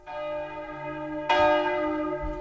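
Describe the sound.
Church bells ring in a village: two clear strokes, the second louder, each leaving a long, rich metallic hum that lingers with no voices.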